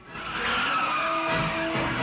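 A jet plane lands and its tires skid on the tarmac. A continuous broad roar with squealing tones stays fairly loud and steady throughout.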